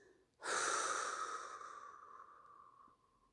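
A single long, deep breath during a guided relaxation exercise. It starts abruptly with an airy, breathy rush that is fairly loud, then slowly fades away over a couple of seconds, heard alone.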